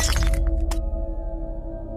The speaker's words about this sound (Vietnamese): Bộp, cho đến khi choang, là tiếng tấm gương đã bị vỡ.